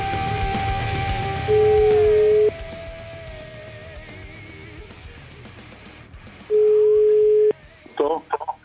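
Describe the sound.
Phone call being placed to a priest from Pistoia on a radio show: two long, steady ringing tones, each about a second, with voices talking underneath and a few short tone blips near the end.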